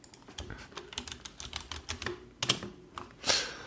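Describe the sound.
Keys click as someone types a message on a keyboard, with many quick, irregular taps at a soft level and no other sound.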